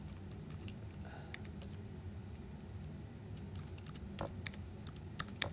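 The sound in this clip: Typing on a computer keyboard: irregular light key clicks over a low steady hum, growing louder and more frequent toward the end, with no one talking.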